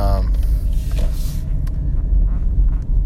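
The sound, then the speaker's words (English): A car being driven, heard from inside: a steady low engine and road rumble that continues throughout without a break. “I'm driving right now.”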